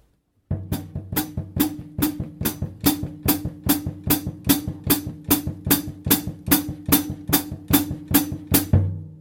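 A bass drum feathered by the foot at a medium-up tempo: a long, even run of soft low thumps in a steady pulse, heard alone.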